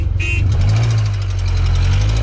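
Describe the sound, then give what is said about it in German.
A car engine runs with a steady, loud, low idling rumble and a brief high chirp near the start. “Hauptsache der Motor, der ist schon gestartet.”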